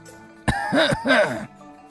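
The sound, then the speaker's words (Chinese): A single staged cough in an audio drama scene: a sharp burst that runs into a throaty, voiced rasp lasting about a second, with nothing else around it. “咳嗽了一声”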